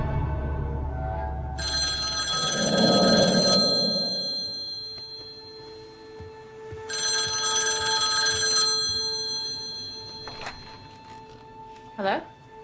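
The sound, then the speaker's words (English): A landline telephone rings in two long electronic bursts separated by a pause, fairly loud, with faint low knocks and murmur underneath. “I took a chance and dialed the number I had for Lydia's old landline.”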